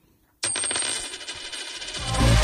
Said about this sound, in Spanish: ¿Lo oyes? Es un euro que cunde.